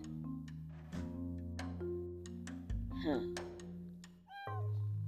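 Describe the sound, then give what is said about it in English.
A whiny cat meows a few times, giving drawn-out, wavering cries over a steady humming tonal background. “sorry, I have a cat. And she's really, really, really whiny.”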